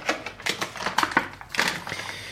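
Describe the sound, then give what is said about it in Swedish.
A knife pierces a hole in a plastic package, giving many quick, crisp crinkles and clicks of stiff plastic in uneven bursts, fairly faint, with no talk. “Så jag gör helt enkelt så att jag tar en kniv och trycker hål på paketet. Så jag sen kan vidga hålet med fingrarna.”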